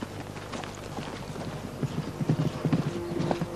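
Horse hooves clip-clop as two mounted riders move ahead of a company. Many quiet, irregular hoof beats grow slightly louder and denser toward the end.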